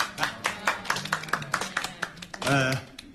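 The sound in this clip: Welcoming claps from a village gathering for the chairman of the Qingdao Jiaozhou Qingshan food company: faint, rhythmic, distinct hand claps in a quick, even pulse, followed briefly by a voice near the end.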